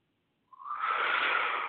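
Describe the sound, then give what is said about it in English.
A deep breath drawn in through the nose during a guided meditation: after a moment of silence, a soft airy hiss begins and swells, then holds steady for over a second. “Breathe in the essence of this light vibration within the column of light it has created. Breathe it in.”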